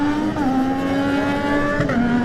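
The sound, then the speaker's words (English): Triumph sport motorcycle engine howling as it races off the start line, a loud continuous buzzing rev whose pitch climbs, steps down at gear changes and climbs again. “Jack Fowler on the Triumph. What a great sound that is.”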